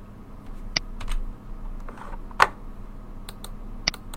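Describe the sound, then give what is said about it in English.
A number is typed on a computer keyboard and a mouse clicks: a few sharp, faint keystrokes and clicks spaced apart, with quiet pauses and a low background hum. “Now to change it to 8, we click inside the points box, type the number we would like, and press update.”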